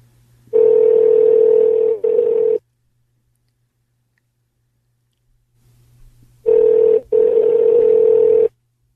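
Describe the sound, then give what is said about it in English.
Telephone ringback tones play while an internet test call connects: two long, steady buzzing rings, each with a short break in it, separated by several seconds of near silence. No voices are heard. “You state your name after the tone, and Google Voice will try to connect you. A Skype test call.”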